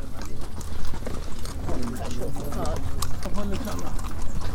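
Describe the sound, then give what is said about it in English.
Pony hooves clip-clop as the animal pulls a cart toward Edfu, making a quick, steady patter of many strikes while people talk over it. “So we're on the old pony and cart.”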